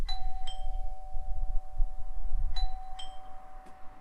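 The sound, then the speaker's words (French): Doorbell ringing at a house gate: bright two-tone chimes sound twice, once at the start and again later, each over a steady sustained ringing tone with a low rumble beneath. “Alors, je sonne.”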